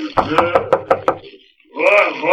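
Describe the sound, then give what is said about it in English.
Knocking on a laboratory door, six quick, evenly spaced hard raps, followed after a short pause by a voice. “And every time I knock, you wait and you shall see. Here's the door.”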